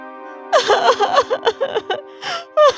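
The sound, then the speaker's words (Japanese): A woman crying, a queen in a fairy tale, in halting sobbing and gasping bursts of uneven length, with short pauses between them, over a steady sustained musical tone. “愛しい妻よ、お願いだから泣かないで。”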